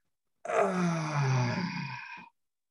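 A person imitates the groan of sitting down: a single drawn-out voiced groan about two seconds long that falls in pitch and ends abruptly.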